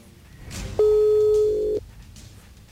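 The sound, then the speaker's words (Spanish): A telephone call is dialed and one steady electronic tone sounds, holding an even mid pitch for about a second before cutting off abruptly. Faint background noise comes before and after it. “La primera persona que le vamos a marcar en vivo ahorita.”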